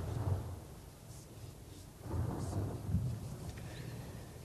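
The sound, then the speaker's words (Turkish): Thunder rumbles through a summer rain shower, a low, fairly quiet roll that swells twice over a steady hiss of falling rain, with no voices. “Ah bak geçti. Yaz yağmuru. Gördün mü bak geçti işte yine.”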